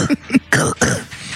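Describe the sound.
A person clears their throat in a few short, raspy, guttural bursts that fade toward the end, with no other voices.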